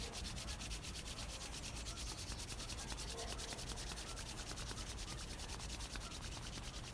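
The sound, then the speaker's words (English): Hands rubbing briskly together to warm them, a steady, continuous dry friction hiss that holds an even loudness throughout with no pauses and no talking. “And rubbing the hands nice and warm.”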